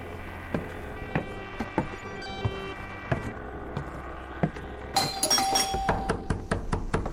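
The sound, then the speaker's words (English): A doorbell rings with a bright, ringing chime in the later part, after a quiet stretch of scattered soft clicks that keep going around it. “Was that my doorbell or am I dreaming? Good Lord, I say, that was the doorbell.”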